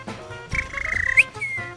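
A person whistles one sustained high note that wavers slightly and ends in a quick upward flick, lasting under a second over low background noise.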